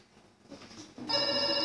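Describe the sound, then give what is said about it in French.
A mobile phone ringtone goes off in a lecture hall. A bright, tonal ring starts abruptly after a moment of faint, low background noise and keeps sounding loudly to the end. “S'il vous plaît, éteignez vos téléphones.”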